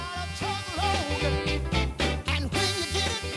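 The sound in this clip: A 1960s rhythm and blues hit plays, with a thumping bass line, punchy backing and a lead voice singing over a steady groove.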